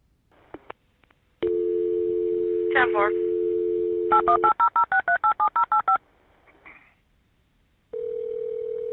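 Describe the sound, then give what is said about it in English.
Telephone keypad tones as a dispatcher dials an air ambulance company: a steady dial tone, then a quick run of evenly spaced keypad beeps, and later another steady tone. “While the EMS crew work on Robert, a dispatcher in Fort Scott dials an air ambulance company.”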